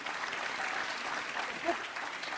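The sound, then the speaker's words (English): Audience applause in a hall at a university talk: dense, steady clapping that fills the whole stretch at an even level, with no single claps standing out. “Don't use up all of the applause.”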